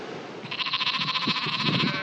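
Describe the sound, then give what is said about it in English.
Sheep bleating on Achill Island on the west coast of Ireland: one long, loud bleat with a quavering, wavering tone, heard over a low background rumble. “There are more sheep than people here.”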